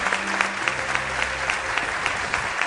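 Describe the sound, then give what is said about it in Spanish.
Audience applause welcoming a new guest on a show about UFO mysteries: steady, dense clapping that continues evenly for about three seconds, with a faint low hum underneath. “Otro aplauso pido para él.”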